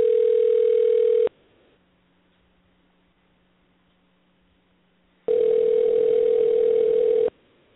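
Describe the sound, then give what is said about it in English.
A telephone dial tone sounds while a number is dialed: two long, steady tone bursts separated by a quiet stretch with only a faint low hum. “Okay. Dial in the number.”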